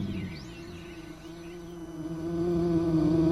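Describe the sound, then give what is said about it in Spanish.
A horsefly buzzing around: a steady, droning insect hum with a slightly wavering pitch that swells louder toward the end, heard alone. “Entonces Elal se transformó en tábano y le revoloteó hasta que la ballena, cansada del zumbido, se lo tragó.”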